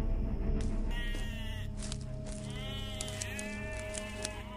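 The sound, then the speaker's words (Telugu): Goats bleating, two goats tied to a tree near a village at night: several wavering, nasal bleats rise and fall over a steady low background. “ఆ ఊరి పెద్దలు రెండు మేకల్ని తీసుకుని వచ్చి వాటిని చెట్టు కట్టేసి”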